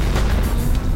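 An explosion sound effect heard as a loud, dense roar with heavy low rumble that stays sustained for about a second.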